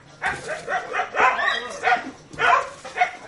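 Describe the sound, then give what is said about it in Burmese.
Dogs barking and yipping at a dog shelter in Thanlyin Township, Yangon, a rapid series of short, sharp, fairly loud yelping bursts that come close together with brief gaps between them. “ရန်ကုန်တိုင်းဒေသကြီးတန်လင်းမြို့နယ်မှာရှိတဲ့ဒီခွေးဆောင်ရှောက်ရေးဂရားလေးကိုလွန်ခဲ့တဲ့တနေ့ကျော်လောက်ကစတင်တည်ထောင်ခဲ့တာဖြစ်ပါတယ်။”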